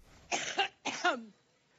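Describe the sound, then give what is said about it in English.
A woman coughs in two short, harsh bursts, each made of a couple of hacking pulses. The second trails off into a lower, throaty rasp, with no talk around it. “here's a clip of Hillary coughing”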